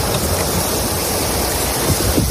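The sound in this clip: Torrential rain with hail pours down in a flooding cloudburst, producing a dense, unbroken roar of falling water, loud and steady throughout, with no voices.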